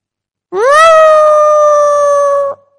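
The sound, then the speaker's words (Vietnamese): A hunter's wolf-like howl, raised to summon a wolf. One loud, sustained cry that rises quickly in pitch, then holds a steady tone for about two seconds before cutting off. “Tên thợ săn tóc đen ngẩng đầu, tru lên một tiếng.”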